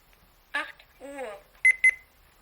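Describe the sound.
Two short, high electronic beeps in quick succession from a talking clock while its hourly announcement start time is being set. They follow a brief spoken voice.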